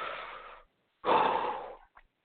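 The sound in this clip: Controlled breathing: two long, loud, airy breaths with a steady hiss, separated by a short silence and followed by a brief faint puff.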